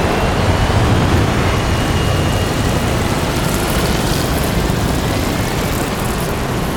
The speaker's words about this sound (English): Three aircraft take off, kicking up black dust.